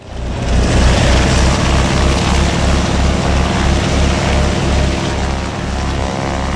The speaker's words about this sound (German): Propeller laufen und die Maschinen waren heiß für den Start der Flugshow Wings and Friends zu Grenchen.